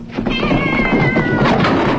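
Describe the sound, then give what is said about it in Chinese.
Kitten meowing inside a classroom after climbing into a desk drawer, its wavering, drawn-out cries rising clearly over a dense, noisy background of commotion. “一只小猫不知道怎么跑到抽屉里，又在教室里乱蹦乱跳的”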